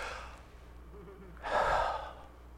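One sharp intake of breath, a short audible gasp, rises out of quiet background noise near the middle and fades quickly.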